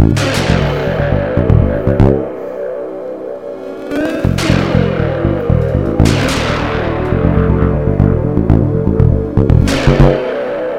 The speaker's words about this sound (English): we have 9 mandolin strings added together and sent into a sine osc overdrive, and it gives us this sound when I move the mouse quickly.